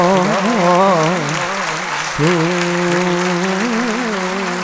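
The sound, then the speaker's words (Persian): Audience clapping for Imam Reza at a religious gathering: a steady wash of claps sits beneath a loud, ornamented sung voice with wavering held notes. “اگه برای امام رضا دست میزنی باید با جون دست میزنی.”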